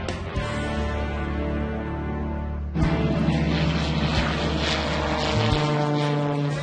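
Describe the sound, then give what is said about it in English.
Propeller aircraft engines drone at an air show at an international airport. The steady, loud hum carries strong tonal lines and turns rougher and louder partway through, with the engine pitch shifting near the end. “The next morning, at the Hamilton International Airport, the air show is taking off.”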